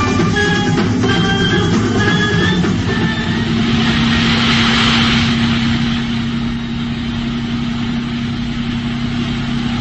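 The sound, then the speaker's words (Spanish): A powerful Rolls-Royce engine drones steadily as the car drives, a continuous low rumble with a sustained mid-pitched whine and no pauses. “hombre increíble controla con pulso firme el volante del poderoso Rolls Royce”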